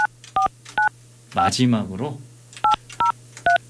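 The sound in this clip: Telephone keypad dialing tones as a call is placed: six short, bright dual-pitch beeps at an even pace, three before and three after a brief spoken voice, over a steady low hum.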